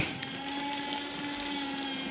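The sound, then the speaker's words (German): An electric paper shredder runs with a steady motorized whir and a constant tonal hum, loud and unbroken for about two seconds. “Das beste Gerät für den Podcast. Einfach ein Aktenvernichter.”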